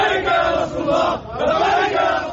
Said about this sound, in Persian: برخی هم در فرودگاه بیروت برای استقبال از کسانی که به لبنان باز می‌گردند جشن برگزار کرده‌اند. هواداران حزب الله جشن پیروزی گرفتند.